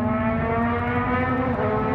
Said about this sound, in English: turned into this, stopped traffic, sounds of racing engines